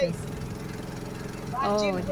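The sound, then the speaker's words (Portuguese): A boat motor runs on the Xingu River, giving a steady low droning hum throughout, and a voice rises over it toward the end. “Motor do barco.”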